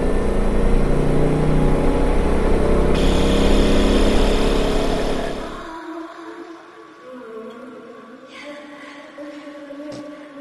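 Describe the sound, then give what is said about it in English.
A Ford Bronco engine runs in high gear with a loud, steady drone for about five and a half seconds, then drops away abruptly, leaving only a quieter low rumble. “That's the Ford Bronco in high gear.”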